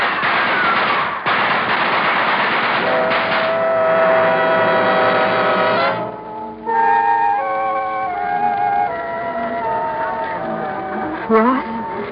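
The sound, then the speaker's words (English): Gunfire in a radio drama battle during a frontier land rush, with attackers coming up a hill: a dense, rattling barrage fills the first half, with voices over it, then gives way to tonal sounds. “They're coming up the hill. Fire into them. Scare them back.”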